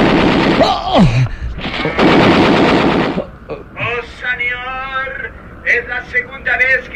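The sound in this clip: Gunshots as a radio-drama sound effect: loud, dense bursts of gunfire fill roughly the first three seconds, then a voice speaks over quieter background.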